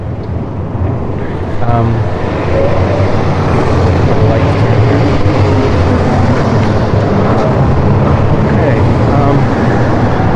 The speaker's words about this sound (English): It's kind of hard to be serious when there's all this traffic here.